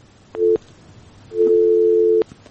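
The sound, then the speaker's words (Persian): A telephone busy tone sounds after a call is dropped by a technical fault: a short steady beep, a pause, then a longer unbroken beep of the same pitch, loud and clear with no talk. “بله. مشکل تکنیکی داره. تماسشون قطع شد.”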